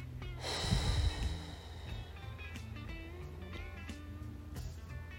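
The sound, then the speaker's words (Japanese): Deep breathing during a seated breathing exercise: one loud, rushing breath near the start, then quieter, airy breath sound for the rest. “たっぷり呼吸を吸って吐きます”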